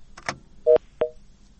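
Telephone dialing tones: two short, loud dual-tone keypad beeps in quick succession, each a steady pitched pulse, over a faint background hum.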